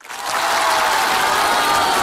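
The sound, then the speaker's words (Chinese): Audience applause at a crosstalk comedy show, swelling quickly within the first moment into loud, sustained clapping from a large crowd that holds evenly to the end. “谢谢， 谢谢大家， 感谢大家热烈的掌声啊！”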